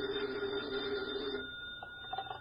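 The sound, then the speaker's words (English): A desk telephone rings in an FBI field office: one sustained electric ring that cuts off partway through, leaving a steady low hum behind it. “Special Agent Jim Taylor is at his desk when his phone rings.”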